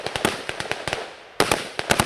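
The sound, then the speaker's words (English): Rapid gunfire in a gunfight between army rangers and guerrillas in a Philippine jungle, many loud sharp cracks in quick irregular succession with a brief lull near the middle before the shots resume. “Under a blazing mid-morning sun, a gunfight rages in the Philippine jungle.”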